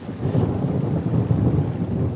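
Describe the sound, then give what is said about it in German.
A summer thunderstorm in the mountains gives a continuous low, heavy rumble of thunder, with a rain-like hiss layered over it throughout. No voices are heard. “Auch an noch so heißen Sommertagen kommt hier oben schnell mal ein Gewitter vorbei.”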